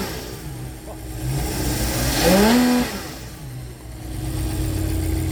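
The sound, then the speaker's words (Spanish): A Ferrari V12 engine idles, then revs once. The pitch sweeps sharply upward and the engine grows louder before it drops back to a steady, rumbling idle. “Este es el sonido de un Ferrari V12.”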